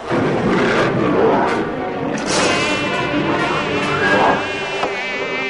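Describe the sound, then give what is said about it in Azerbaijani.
Fly buzzing: a loud, continuous, wavering whine rich in overtones that shifts slightly in pitch as the insect circles, lasting the whole stretch with no talk. “Amma milçək aslandan qorxmadı. Bir iki dövrə vurandan sonra yenə eyni yerdən sancdı.”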